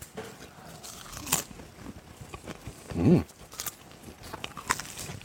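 Crunchy bites into crusty bread: soft chewing and small clicks, broken by one prominent, louder crunch near the middle.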